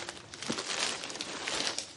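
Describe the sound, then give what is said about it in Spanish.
Paper crinkles and rustles as a shirt is wrapped in it, a dense, continuous crackling texture lasting about two seconds at moderate volume, with no voices. “Ella envuelve la camisa en papel y la mete en su maletín.”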